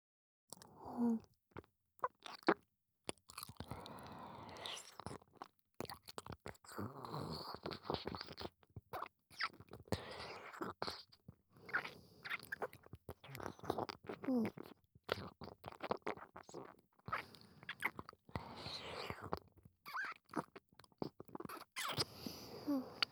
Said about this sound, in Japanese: それじゃあ、近くで聞いてください。よいしょ。それじゃあ、いただきます。